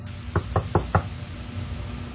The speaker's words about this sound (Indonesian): Aku berulang kali mengetuk kamar ini dan tidak ada satupun yang keluar dari kamar ini.